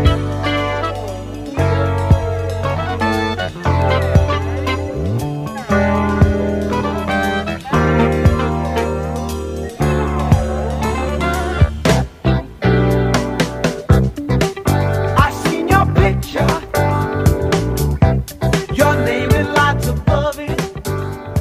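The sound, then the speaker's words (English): A band plays together in a steady, punchy groove, with Rhodes electric piano, clavinet, percussion, lyricon and bass layered into one busy, rhythmic mix throughout. “can we just hear it all together, reassembled to see how different it is when you put the Rhodes, the clavinet, the percussion, the lyricon, you put it all back in and it sounds like this.”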